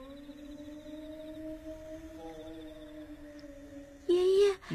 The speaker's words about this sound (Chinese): 这是啥东西在叫？ 狼，是狼嚎。 这地方还有狼？ 要有狼就好喽，这是人学的狼叫。